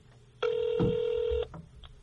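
A single steady electronic ringback tone, about one second long, sounds as a telephone call is being connected, alone over faint background noise.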